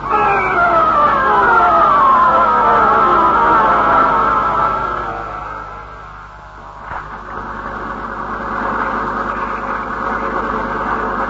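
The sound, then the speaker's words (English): A boat motor runs with a loud, continuous drone. Its whining tone slides downward over the first few seconds, dips, then settles into an even, throbbing hum. “No, you can't hear anything over this motor.”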